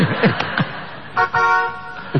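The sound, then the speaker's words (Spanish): A train horn sounds on a children's party train: a short toot followed by a longer, steady tonal blast, both fairly loud. “¿Qué toca en el tren? La bocina. La corneta, señor.”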